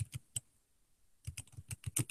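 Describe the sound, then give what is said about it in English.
Keys clacking on a computer keyboard as a search term is typed: a few faint taps, a short silence, then a quicker run of light, fairly even keystrokes. “I just typed in the search term multiple viewpoints.”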